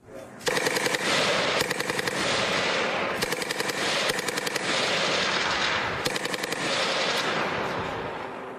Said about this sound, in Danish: Det er altså robotter på lavfødder med maskingevær, anti-tank, missiler osv. monteret ovenpå. Jeg synes lige, vi skal høre, hvordan de lyder.